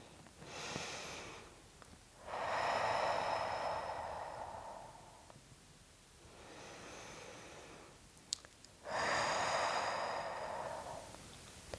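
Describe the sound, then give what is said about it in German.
Slow, deep breathing in and out, each quiet airy inhale followed by a longer, louder exhale. The cycle repeats a few times with short pauses between breaths. “Und dann könnt ihr ganz locker dreimal einatmen, tief einatmen und dreimal ausatmen.”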